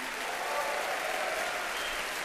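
An audience at a New York jazz concert applauds the band members on piano, bass and drums. The clapping is dense and sustained, holding at an even level throughout.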